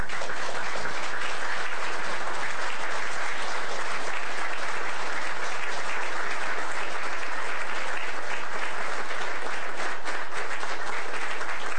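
A warm, unbroken round of applause from the audience at an Alaska governor's address greets the standing state cabinet, a thick, even wash of clapping lasting about twelve seconds.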